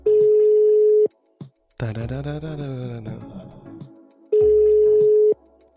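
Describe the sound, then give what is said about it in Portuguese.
Ringback tones from an outgoing telephone call: two long, steady low-pitched tones, each about a second, separated by a stretch containing a wavering vocal sound. “Vamos ligar para ele.”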